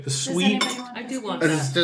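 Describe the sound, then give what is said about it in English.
Cutlery clinks lightly as Hillel sandwiches of matzah and horoset are eaten, with small scattered metallic taps sitting under people talking. “And that is the sound of Hillel sandwiches being consumed, dear listener.”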